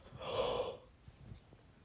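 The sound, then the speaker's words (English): A single yawn, a breathy drawn-out exhalation that swells and then fades over about half a second, moderately faint, with quiet breathing afterward and no talk. “I'm yawning. Go ahead and judge me.”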